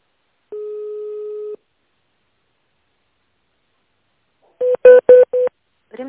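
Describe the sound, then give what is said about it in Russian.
Telephone keypad tones dialing an extension number: one long, steady beep, a silent pause, then a quick run of short, clipped dialing tones, loud and clean. “Если вы знаете номер сотрудника, наберите его в тоновом режиме”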